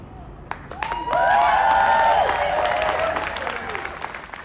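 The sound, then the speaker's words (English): A crowd cheers and applauds at a rally in Revelstoke, British Columbia, on May 30th, supporting the Fairy Creek blockade against old-growth logging. Clapping and whoops swell loudly, then gradually ease. “That is the sound of a rally in Revelstoke, British Columbia on May 30th.”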